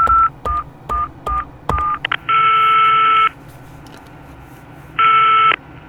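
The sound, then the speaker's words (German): A telephone number is dialed in an office to place a call: a quick run of short beeping key tones, then two long, steady ringing tones with a pause between them. “Ich muss nur kurz meinen Papst anrufen.”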